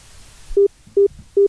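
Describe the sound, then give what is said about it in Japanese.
Telephone ringing tone on an outgoing call: three short, evenly spaced low beeps that stand alone over a faint background hiss. “ミオンさん電話してみます”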